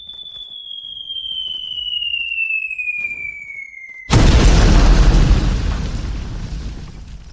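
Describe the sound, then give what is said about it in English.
An apartment explodes after being hollowed out: a thin whistling tone slides slowly downward, then a sudden, loud boom bursts into a long roaring rumble that gradually fades. “the apartment that you were just in gets hollowed out and explodes that the guy was just in”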